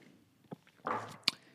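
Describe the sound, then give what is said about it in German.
A sip from a drink, heard as a brief wet slurp followed by a small swallow and a faint click of the mouth, quiet and alone. “Schluck trinken, kurze Pause.”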